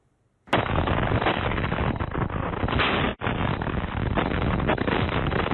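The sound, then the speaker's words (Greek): A missile strike on a residential area in Vinnytsia, central Ukraine, captured on a security camera: a sudden, loud explosive roar bursts in and holds as a dense, sustained rumble, with one brief dip partway through and no voices. “Κάμερες ασφαλείας καταγράφουν τη στιγμή που πύραυλος χτυπά κατοικημένη περιοχή στη Βινίτσια, στη κεντρική Ουκρανία.”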